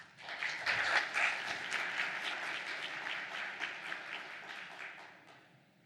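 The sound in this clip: Audience applause welcoming a speaker at a Texas real property law seminar: dense, sustained clapping from many hands that holds steady, then thins and fades toward the end.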